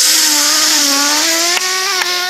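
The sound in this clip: A breathalyzer gives a loud, steady buzzing tone as someone blows into it. The pitch stays nearly level with a slight rise, and two brief clicks break in near the end.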